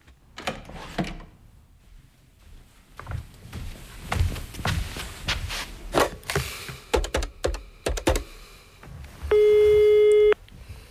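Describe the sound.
Telephone dialing: a run of sharp mechanical clicks and taps, then near the end a loud, steady electronic line tone lasting about a second.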